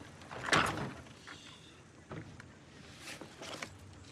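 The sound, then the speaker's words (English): A wooden shed door being pulled and tugged by hand: a few dull rattling thumps and scrapes, faint over a steady background hiss. “Outside, the women pull at the door of the wooden shed.”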